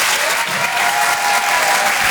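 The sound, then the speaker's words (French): Loud audience applause at a stand-up comedy show in Paris: a thick, continuous roar of clapping at an even level throughout. “Faites du bruit, s'il vous plaît, pour Laurent Barra.”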